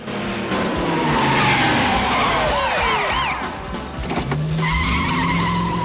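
Tyres squeal and skid as a red sports car is thrown around during a police car chase, a loud continuous screech with a churning engine underneath, sweeping squeals rising and falling through the middle.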